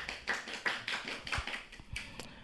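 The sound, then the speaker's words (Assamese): Scattered hand clapping from a small audience at a quiz, honouring each competing team. The claps are quiet and uneven, with many separate slaps at a brisk, irregular pace. “প্ৰতিটো দলকে নিজৰ বাবে এজাউৰি হাত চাপৰি বজাবলৈ”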